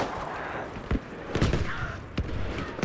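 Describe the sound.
Gunfire in the video game Battlefield V: a few sharp, booming shots punch through a dense, noisy game background, spaced unevenly across the moment.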